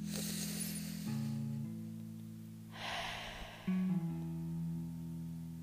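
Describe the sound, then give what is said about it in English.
A slow, deep breath heard as two long, soft, airy rushes of breath over steady, sustained low tones, with no talking. “if you missed that first deep breath, as always, let's just bring that back.”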